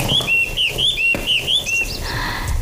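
A caged bird chirps in a quick series of high, bright, repeated notes, followed by a few softer, varied calls.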